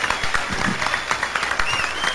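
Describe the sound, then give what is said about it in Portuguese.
Applause from a group, a moderately loud patter of many hand claps that rises and falls slightly while a few voices sound faintly underneath. “Tem que sair com palmas aqui, ó.”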